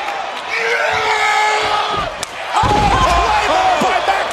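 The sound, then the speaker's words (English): A wrestler's power slam hits the ring at a pro wrestling event: a low, heavy thud lands midway and is followed by a loud crowd roar, with crowd noise and commentators' voices throughout. “Braun Strowman sending a message with a massive power slam”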